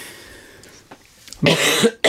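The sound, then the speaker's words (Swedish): A single harsh cough bursts out loudly after a few moments of quiet background with faint clicks, then trails off with a short breathy tail. “Förlåt. Nej, det är ingen fara. Hosta på det.”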